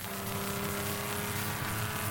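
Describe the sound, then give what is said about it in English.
Steady, unbroken engine roar from a race car held flat out along the Mulsanne Straight at race speeds near 175 to 185 mph. A dense, constant drone carries a low hum with no gear changes or pauses across the whole stretch. “And you can go round very nearly flat out. We're on Mulsanne Strait now. Going down here.”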